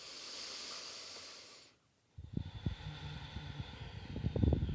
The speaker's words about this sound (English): start to breathe nice, steady breaths just in and out through your nose for a moment.